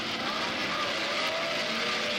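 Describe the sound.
Grand Prix racing cars with Climax and BRM engines starting a race at the Brands Hatch circuit, heard as a blended, fairly quiet engine roar with a faint rising whine and no voices.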